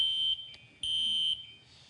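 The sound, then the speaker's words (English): A fire alarm sounds two loud, steady, high-pitched electronic beeps with a short gap between them. “Fire alarm. Fire alarm sounds like this. Most of you heard that before at some point.”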